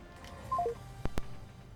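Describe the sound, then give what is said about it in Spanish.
Telephone keypad tones as a dropped call is redialed: a few short, clear beeps in a quick run, followed by two sharp clicks, over a faint steady hum. “Se nos cayó la llamada con Rosiri, vamos a repetirla aquí.”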